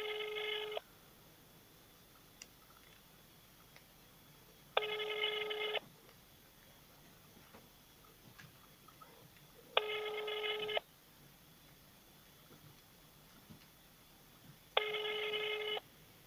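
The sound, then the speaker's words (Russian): Ringback tone of an unanswered telephone call: four evenly spaced buzzing tones, each about a second long, with roughly four seconds of near silence between them. “Трубочка не берется.”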